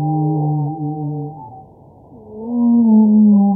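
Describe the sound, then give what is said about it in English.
Humpback whale song, from a baleen whale, forms loud, low harmonic moans that hold, waver and fade toward the middle, then swell back into a deeper sustained tone. “It's the song of a humpback whale, a type of baleen whale.”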